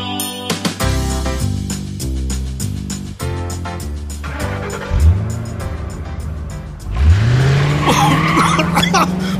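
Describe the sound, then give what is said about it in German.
A car driving fast with squealing tires: loud engine roar gives way to repeated screeching skids, with drawn-out tire squeals sweeping upward in pitch over the final seconds. “Holla! Estella fährt ja einen ganz schön heißen Reifen. naja, oh. sie hat es eilig.”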